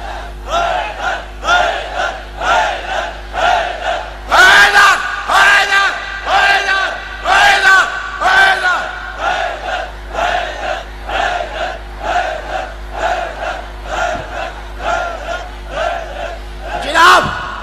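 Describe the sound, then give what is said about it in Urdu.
A crowd chants slogans in loud, rhythmic unison. Many voices bellow the same phrases again and again in regular surging bursts, with no pause between the repeated calls. “یہ نعرہ کہاں سے آیا اور یہ تین نعرے ہم لگاتے ہیں، اس کا جواز کہاں سے ہے؟”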